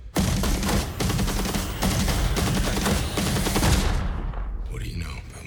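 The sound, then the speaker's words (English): Machine-gun fire timed to music in a film scene: dense, rapid bursts of shots run continuously for about four seconds, then trail off into a quieter tail. “Machine Gun was in time with the music.”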